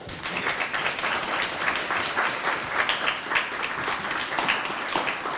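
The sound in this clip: An audience applauds to welcome Professor Stoner before his lecture on whether religious liberty can be legislated. Many hands clap in a brisk, even patter that stays at a steady level from start to finish, with no voices over it.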